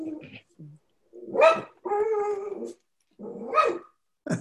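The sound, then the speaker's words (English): A dog barks and growls during a meeting, giving a few short, fairly faint bursts with gaps of silence between them and a longer, rougher growl-like sound in the middle. “That's my dog. I'm sorry.”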